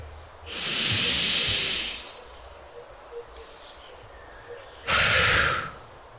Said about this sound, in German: Und danach schneller und etwas forscher als das Einatmen, ausatmen. Und zwar über den Mund. Es hört sich ungefähr so an.